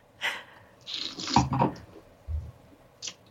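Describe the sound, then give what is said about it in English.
Soft sips of a dry drink from a wine glass: a few quiet, breathy slurps spread out over a few seconds, each short and airy against a near-silent background. “I actually put it in a wine glass and I'm swirling it. And what I'm doing, I'm increasing surface area. So I actually get to smell more of the liquid in there. So I'm going to drink this like, I guess, wine. Let's try it and see.”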